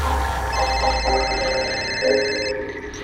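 A telephone ringing with a thin, high electronic tone that runs for about two seconds over a steady wash of background sound, then cuts off.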